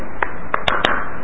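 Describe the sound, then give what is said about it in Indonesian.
Four sharp claps made by striking the right hand onto the back of the left hand during a religious lecture on prayer: unevenly spaced, brief slaps over a low, steady background. “dengan tepuk tangan kanan di atas belakang tangan kiri. Ini yang kita buat.”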